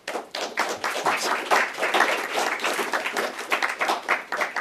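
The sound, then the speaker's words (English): Applause from a gathered audience welcoming a commissioner to speak, many hands clapping in a busy, slightly uneven patter that holds steady for several seconds. “So please join me in welcoming Commissioner Buehler.”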